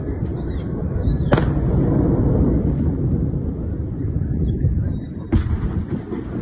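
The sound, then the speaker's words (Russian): Explosions throwing up a mushroom cloud: two sharp booms about four seconds apart punctuate a constant heavy rumble, with faint bird chirps above. “Серьезно взрывает.”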